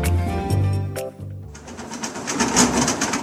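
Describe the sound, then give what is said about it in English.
A 3D printer creaks and whines while printing a simple button shape, its motors giving off a continuous run of shifting mechanical tones, steady and fairly loud throughout. “The sound you are hearing is the creaking of a 3D printer as it recreates a simple button shape from a model that Christian came up with on his computer”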